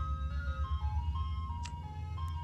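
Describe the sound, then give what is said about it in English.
Ice cream truck jingle: a bright, tinkling tune steps between notes and plays steadily over a continuous low engine rumble for the whole clip. “four grown men chasing after an ice cream truck.”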